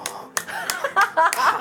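A person claps for themselves after singing: a few slow, well-spaced hand claps, with vocal sounds between them.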